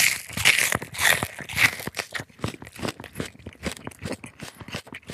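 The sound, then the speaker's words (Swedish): Crunching and chewing from a person eating a raw onion during an eating contest, irregular wet crunches that are loudest in the first two seconds, then continue as softer, rapid chomps. “Han äter nu som bäst, ifall det var någon som funderar.”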